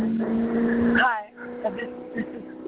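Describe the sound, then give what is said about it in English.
Car noise over a phone call, a steady muffled drone squeezed through a narrow telephone line, with a brief warbling tone near the middle before the rumble settles back. “I can't hear you in the car. At all. Try to roll a window up.”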